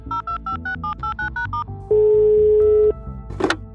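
A telephone call is dialed: eight quick touch-tone beeps in a brisk even rhythm, then one steady ringing tone lasting about a second, followed by a short sharp click.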